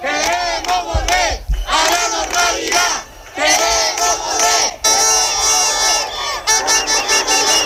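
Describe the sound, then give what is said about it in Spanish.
Protesters shout together in the streets of Ceuta at night. The massed voices are loud and continuous, with brief dips before the roar returns. “Es el sonido de las protestas de esta noche. Los ceutíes han reclamado en las calles la vida que tenían antes”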